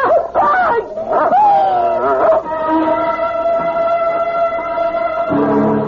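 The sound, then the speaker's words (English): A dog barks and yips in a few loud, rapid bursts, sharp and agitated. “It's only a dog, for Pete's sake. He's not going to hurt you.”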